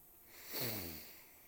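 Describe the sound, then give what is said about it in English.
A single deep inhale during a guided breathing exercise: a soft, airy rush swells to a peak and then tapers off over about a second, quiet and alone. “Take a deep breath in.”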